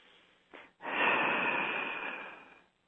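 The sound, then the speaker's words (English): A slow, deep breath taken during a guided meditation: a brief soft sniff, then one long, steady inhale lasting about two seconds that fades out gently. The breathing is soft and heard alone. “Let's take a nice deep breath right now.”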